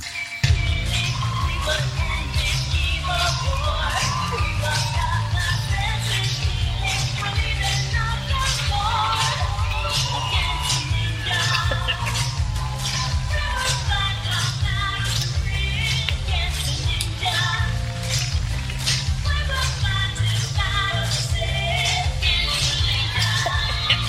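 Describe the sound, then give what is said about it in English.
Steady rhythmic clapping runs through a song, drifting in and out of time with the music. Many sharp claps repeat at a regular pace over a loud, continuous backing track for the whole stretch. “So the clapping is totally off from the song the whole time. It's kind of like your windshield wipers going to a song. Every once in a while, they'll catch back up and be in time. Same thing with this clap. Sounds like this.”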